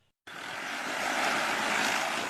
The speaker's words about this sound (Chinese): 在新余市仙女湖区冠桥镇，一台满载药剂的无人植保机快速起飞，沿着提前预设的飞行航线对连片稻田喷洒药剂